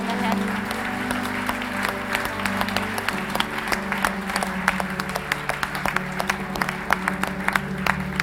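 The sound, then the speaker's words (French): Loud audience applause at a gathering, dense steady clapping throughout with a sustained low tone running beneath it. “Est-ce qu'on peut les applaudir can bien fort?”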